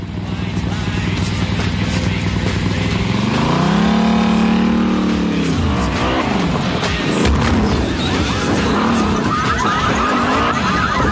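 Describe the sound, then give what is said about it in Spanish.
A motorcycle engine roars as the rider drives over parked cars in a dramatized action scene, a continuous, loud motor drone whose pitch climbs and then drops, layered with rough, clattering noise. “Fuera la motorista pasa sobre los coches aparcados.”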